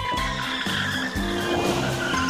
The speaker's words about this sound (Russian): Но однажды волк, как всегда, перебегал дорогу в неположенном месте. Его сбила машина.